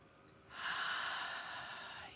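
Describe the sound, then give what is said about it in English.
A deep breath is taken together by a group during a womb and sacral chakra healing session. A steady airy rush swells quickly and then holds for over a second before easing slightly, faint and with no speech. “And eternal breath, an ancestral breath, an ancient healing breath. Let's do it together. 3, 2, 1.”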